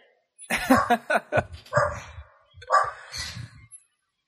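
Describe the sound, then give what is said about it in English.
A dog barks in a few quick bursts of short, yappy, mid-pitched barks separated by brief pauses, loud and close with no talk over them. “I apologize for my dog.”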